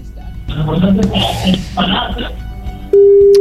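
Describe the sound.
After a stretch of talking, a telephone ring tone starts on an unanswered call, a steady single-pitched tone that holds to the end.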